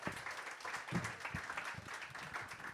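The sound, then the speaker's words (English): Audience applause greeting a guest coming on stage at a live show: a dense, continuous clatter of many hands at even loudness from start to finish. “So can you please put your hands together?”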